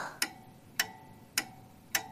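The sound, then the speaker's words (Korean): A pendulum wall clock ticks in a quiet café with no music: four sharp, evenly spaced ticks a little over half a second apart, faint and alone. “찌깍 찌깍. 뒤에 걸린 괴중시계가 말을 건다.”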